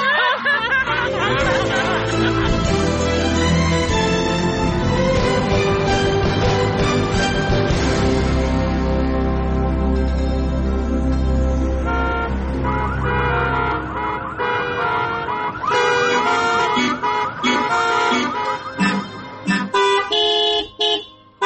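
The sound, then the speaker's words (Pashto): Car horns honking in traffic, overlapping loud sustained tonal blasts with a siren-like wail, continuing for a long stretch before breaking into shorter honks at the end. “اوهو هلکه ته بل کار لري او کنا؟ که صرف هارنونه وهې، غوږونه دې راوخوړل”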